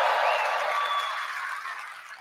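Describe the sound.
Audience applause greets Nvidia CEO Jensen Huang on stage at the GTC developers conference. It is a dense, even wash of clapping and crowd noise that gradually fades toward the end.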